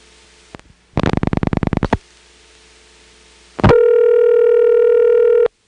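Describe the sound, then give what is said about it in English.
A telephone dials its last digit as a rapid train of mechanical dial pulses over a steady low dial tone, then a definite pause, a sharp switching click, and a loud steady ringing tone as the call reaches the Powers Ferry exchange. “Here's the last digit, and after I dial it, you'll notice there is a very definite pause, and then it starts to ring in Powers Ferry.”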